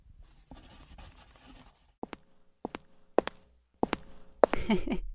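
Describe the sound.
A pen writes an autograph on paper in short scratchy strokes. Several sharp taps and scrapes arrive in quick bursts against a quiet background, ending in a busier flurry of scribbling.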